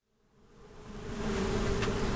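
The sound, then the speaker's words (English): Many honeybees buzz around hives at the edge of a small field outside a prison. The continuous drone swells from faint to a loud, steady hum with no voices. “Thousands of bees fly around the outskirts of a small field outside Pondville Correctional Center.”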